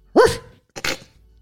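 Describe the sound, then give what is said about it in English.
A person imitates a dog barking during a party drinking game, giving two loud, gruff barks separated by a short pause, with the second bark slightly more clipped. “Do I have to bark too?”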